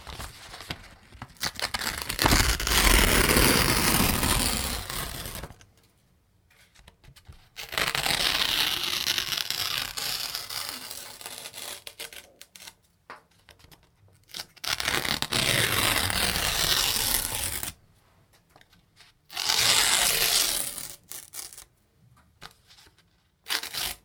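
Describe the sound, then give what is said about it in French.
Paper tearing in four long, harsh bursts of crackly ripping and crumpling, separated by short quiet pauses, with no voices. “Déchirer, déchirer, déchirer.”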